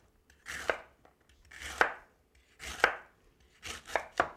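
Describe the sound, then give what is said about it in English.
Knife slicing through the end of a large fennel bulb for a tomato-fennel salad: about five crisp cuts at a steady, unhurried rhythm, each a short crunchy swell ending in a sharp tap on the board, with no talking. “And I'll slice up some of this end.”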